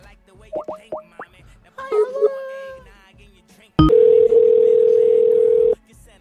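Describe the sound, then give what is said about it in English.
Telephone dial tone for a number that is not working: a loud, steady, single-pitched tone holding about two seconds, preceded by a few short, springy plopping and bouncing electronic sounds. “I don't know why that number's not working, but it's not.”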